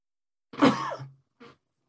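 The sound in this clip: Throat clearing from someone with nacho chip fragments stuck in the back of the throat: a rough, gravelly rasp lasting under a second, then one brief, quieter clearing sound, with no talking.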